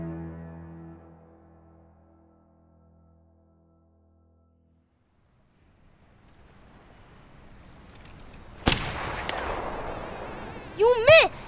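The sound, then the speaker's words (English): A single sharp rifle shot from a video game cracks out over a low, rising ambient rumble, with a few brief higher-pitched sounds trailing after it. “How hard it is to make that kind of shot with this rifle?”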